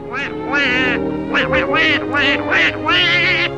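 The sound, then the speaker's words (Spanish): A cartoon duck voice quacks in a loud run of garbled, nasal, squawking bursts, a human voice imitating a duck in the style of a classic animated character. “El encargado de ponerle voz fue originalmente Clarence Nash, quien dobló al pato durante 50 años en más de 120 cortometrajes.”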